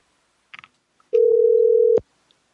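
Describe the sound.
A telephone call is dialed to a motel room: a few faint clicks, then one steady mid-pitched tone lasting under a second that cuts off sharply.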